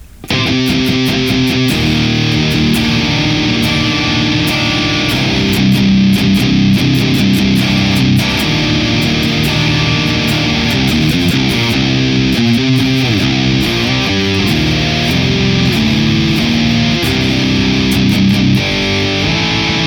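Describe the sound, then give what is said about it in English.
Heavily distorted electric guitar played through a Neural DSP Archetype Abasi amp plugin in stereo with a Nest Dark FA1 Kraken impulse response. The guitar plays loud, continuous, fast rhythmic chugging riffs with dense sustained tone and no pauses. “The Neural DSP archetype Abassi in stereo sounds like this with the Nest Dark FA1 Kraken.”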